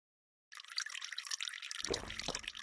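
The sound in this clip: Liquid pours and drips in a steady splashing stream that starts abruptly after a brief silence, with a fuller, lower spatter joining in toward the end.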